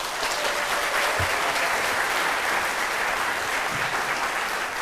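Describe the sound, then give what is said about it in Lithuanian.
Steady audience applause welcomes a guest, an architecture professor, onto a stage: a loud, even wash of many hands clapping that holds without a break and without talk. “norėčiau, kad e, plojimais pasveikintumėte mano pirmąjį svečią”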